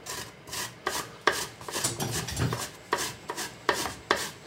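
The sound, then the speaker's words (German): Apple being finely grated by hand for bread: many rhythmic rasping strokes, each a short scratchy burst, repeating at an even pace with a brief pause in the middle. “Geriebener Apfel. Hast du recht. Deshalb würde ich den für ein Brot eher fein reiben.”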